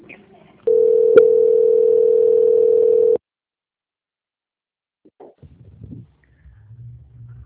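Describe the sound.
A telephone line tone plays during a call transfer: one steady, loud hum lasting about two and a half seconds, then a stretch of silence before faint, brief voice sounds begin.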